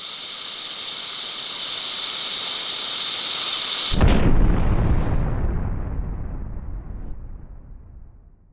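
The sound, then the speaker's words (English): A meteor crashing to earth in a field, as a radio drama effect: a steady, bright hiss cuts off into one heavy, deep explosive boom whose rumble slowly fades away. “A meteor. It must have landed out there in the field.”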